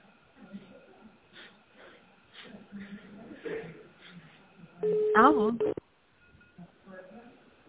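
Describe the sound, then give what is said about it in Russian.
Touch-tone dialing of an office extension number on a telephone gives a brief run of a few sharp, loud beeps. Murmured talk comes before and after the tones. “Вы знаете внутренний номер сотрудника, наберите его, пожалуйста, в тональном режиме.”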